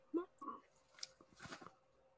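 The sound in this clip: Faint crunchy chewing of burned chocolate chip treats, heard as a few soft, uneven bites and munches.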